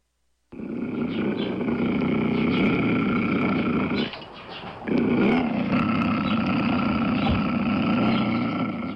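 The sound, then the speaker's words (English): A mountain lion, or puma, from the Santa Cruz Mountains calls in two long, harsh, raspy roaring bursts. Both are loud and rough, separated by a brief pause. “That was the sound of a mountain lion, also known as a puma.”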